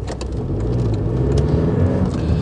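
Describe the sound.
Steady low rumble of a car engine as it drives out of a workplace car park, a continuous mid-level drone with a few faint ticks on top.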